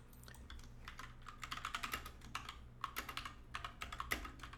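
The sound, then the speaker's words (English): Fast typing on a computer keyboard produces many sharp key clicks in uneven bursts with short pauses between them. The clicks are moderately loud over a faint low hum. “And got to get all this typed out.”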